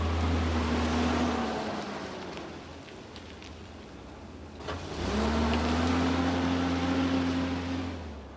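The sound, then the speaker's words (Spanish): A car engine drones as the car drives off, a low steady rumble with a higher tone that sinks midway, then climbs back and holds, over a broad hiss. “Walter arranca y se marchan.”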